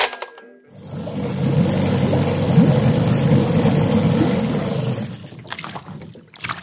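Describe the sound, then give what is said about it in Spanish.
A boat engine runs as a steady low rumbling drone for several seconds and then cuts out, leaving a few brief scattered noises afterward. “¿Por qué nos detenemos? No lo sé aún. El motor se detuvo, pero casi es mejor así.”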